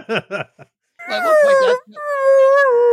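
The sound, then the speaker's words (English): A human voice imitates a whale call, opening with a few short grunting sounds and then long, wavering, moaning tones that slide and hold, loud and alone. “I didn't know you spoke whale.”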